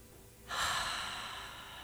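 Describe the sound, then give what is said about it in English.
A deep breath drawn in during a guided meditation: a soft, airy inhalation that starts after a brief quiet moment and continues steadily to the end, with no voices. “Take a moment to close our eyes and breathe in deeply.”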